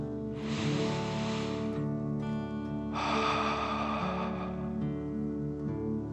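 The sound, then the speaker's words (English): Two long, airy breaths during a children's relaxation exercise, a deep 'dragon breath' drawn in and then pushed out. Each is a broad breathy rush, the second slightly louder, with a pause between them over a steady, soft musical tone. “One last dragon breath in and out.”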